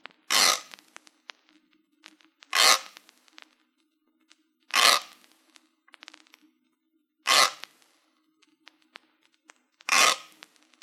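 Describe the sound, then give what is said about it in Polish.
Kitchen grater scraping, moving from far left to right: five rough, hissing strokes of even length come at a steady, unhurried pace, with quiet gaps between them. “Dźwięk tarki powinien być początkowo słyszany skrajnie z lewej strony, a następnie co 45 stopni przesuwać się do środka i dalej na”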